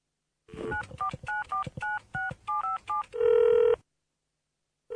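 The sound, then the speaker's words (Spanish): Telephone keypad tones from a number being dialed: a quick run of short, evenly spaced beeps, then a longer steady tone. No one speaks. “voy a llamar a José. A ver.”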